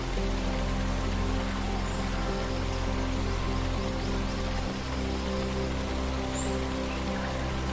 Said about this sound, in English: Russell Falls cascades in three tiers through the rainforest, each drop more spectacular than the last.